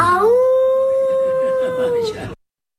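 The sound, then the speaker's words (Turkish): A young poet imitates a wolf with one sustained howl. The voice swoops upward at the start, then holds a steady, clear tone for about two seconds before cutting off abruptly. “Küçük şair şiirini bitirdikten sonra kurt gibi uludu.”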